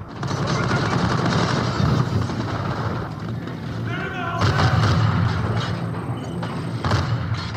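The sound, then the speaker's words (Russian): Gunfire and artillery roar through a military video game battle, a dense, continuous barrage of cracking shots and heavy booms that stays loud throughout without a break. “Порой трудно понять, это видеоигра или съемки настоящего боя. В некоторых игрок стреляет без разбора по любой движущейся мишени.”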